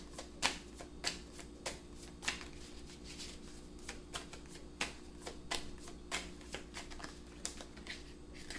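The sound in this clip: Tarot cards being shuffled and drawn from a deck, heard as many crisp papery riffles and snaps in an irregular rhythm with no talk over them.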